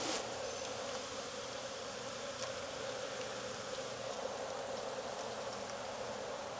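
Bees buzzing in an open beehive: a dense, continuous hum of many insects, steady and even throughout, with no voices.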